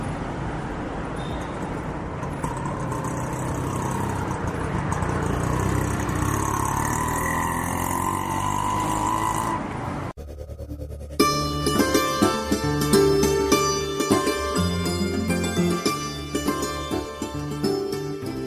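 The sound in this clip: An auto rickshaw engine runs as a steady, broad rumbling drone for about half the time, then music abruptly takes over and continues to the end.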